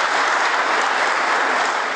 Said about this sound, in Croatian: Aplauz je to vladajućih poslanika za naprednjačkog ministra